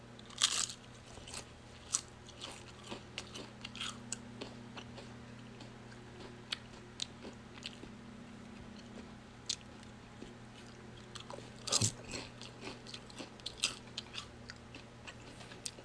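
Crisp biting and crunching of Lay's Classic Original potato chips: a sharp bite opens, then many small brittle chews, with another loud crunchy bite later, over a low steady hum.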